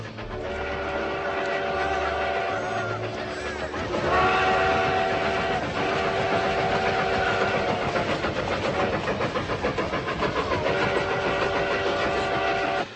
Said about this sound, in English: All I want is this train to get back by dinner.